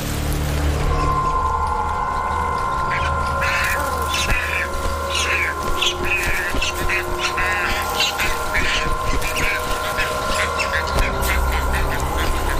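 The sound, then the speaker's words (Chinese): Nestling birds of an Andean species squabble in the nest within a crowded breeding colony as they fight over food, giving many harsh squawks and chirps in a continuous, busy jumble over a steady, tonal background hum. “紧张的气氛似乎蔓延到了整个聚居地，甚至连巢里的雏鸟也不消停。”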